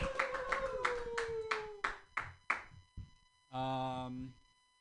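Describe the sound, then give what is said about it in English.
Sparse, sharp hand claps at a comedy open mic, about nine separate smacks in a loose rhythm, then a brief cheering voice. “Clap your hands together for Harvey, not Weinstein.”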